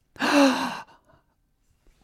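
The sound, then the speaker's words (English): A single breathy gasp, a short voiced rush of breath lasting under a second, followed by near silence. “Did you just gasp looking at the whistle?”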